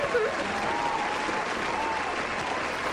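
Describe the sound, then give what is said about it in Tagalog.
Applause from an audience for the flower boys and flower girls, a dense, continuous clatter of clapping that holds at a steady, even level from start to finish. “Kaya ang gawin natin ay palakpakan natin sila.”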